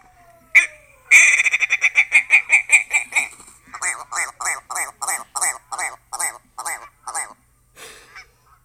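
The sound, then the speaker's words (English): A strange bird call made of a long run of rapid, harsh, honking notes, loud and closely repeated at first, then becoming more spaced out and ending in a few separate notes. “That's a crazy-ass bird call.”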